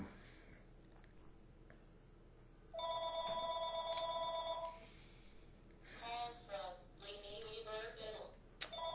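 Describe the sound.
A telephone rings twice in bright, buzzing bursts of several seconds each, separated by a short gap, over a quiet background with faint voices.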